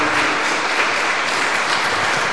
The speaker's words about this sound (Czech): Můžeme zatleskat